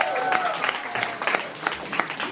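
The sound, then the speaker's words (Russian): An audience applauds at a live concert performance, many hands clapping in a dense, steady patter of crisp claps that holds at a moderate level from start to finish. “Аплодисменты вам, ребят.”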